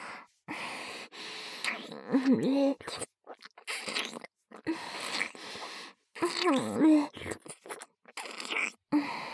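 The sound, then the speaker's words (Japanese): Wet, smacking deep-kissing sounds full of saliva, a series of irregular moist bursts separated by short pauses, mixed with soft breathy vocal moans. “ほら、唾液いっぱいのエッチなディープキス。”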